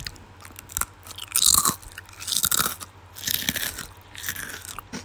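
Crunchy, spicy snack chewed up close, ASMR-style, after being poured into a bowl: irregular bursts of crisp crunching and biting, rising and falling in loudness, with no talking.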